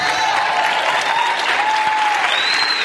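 Audience applause, dense and steady clapping that holds at an even, fairly loud level from start to finish with no break.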